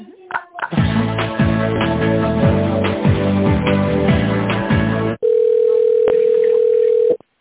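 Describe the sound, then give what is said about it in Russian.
Telephone ringback tone while a transferred call connects: a short melodic hold tune leads into one steady, unbroken mid-pitched tone that lasts about two seconds and then stops abruptly. “Алло, сейчас я вас соединю с Владиславом Игоревичем.”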